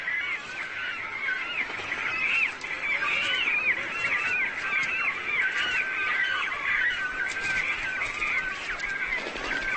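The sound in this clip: Cormorants call noisily in a crowded spring breeding colony as they fight over the best nesting sites, a steady, dense chorus of loud, harsh, honking cries overlapping without pause throughout.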